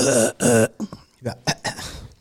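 Throat clearing from a crumb stuck in the throat: two loud, voiced rasps in quick succession, then several shorter, fainter bursts.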